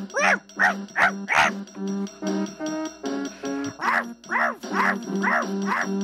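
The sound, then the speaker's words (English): A dog barks over and over in sharp, harmonic bursts, with a fast run of barks at the start and another near the end and a quieter stretch of steady tone between them. “That's my dog, Danny, barking.”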